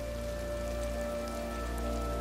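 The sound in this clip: Rain pattering steadily on a koi pond, a dense, even hiss of drops hitting the water with no breaks and no voices.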